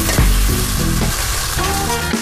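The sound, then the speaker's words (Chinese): Loud, steady sizzling of soaked rice noodles stir-frying in hot lard with a few greens in a wok. It is a dense, continuous crackle with scraping stir noises running throughout. “猪油下锅烧热，搭配少量青菜，再让提前泡好的果条下锅，在高温下充分反应”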